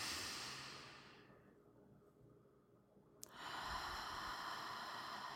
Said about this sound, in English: let's just take as a collective a deep inhalation.